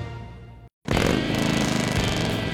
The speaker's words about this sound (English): There's nothing like the sound of a Harley and the feel of the open road, and knowing the bike beneath you is yours.